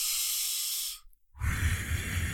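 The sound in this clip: A deep breath is drawn and released, two long airy hisses split by a short pause, the second carrying a fuller, lower rush of air.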